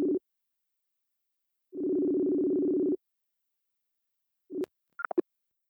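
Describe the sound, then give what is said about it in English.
Telephone tones while a call is dialed: a short beep, a long steady buzzing tone, another brief beep, then a few quick high chirps, with no voices. “Oh, so now we get this good dialing B-roll. Yeah, okay. We love to hear it.”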